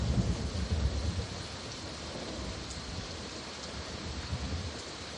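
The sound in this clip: Steady rain pours down continuously, a dense, even hiss of falling drops with no break, and no voices are heard.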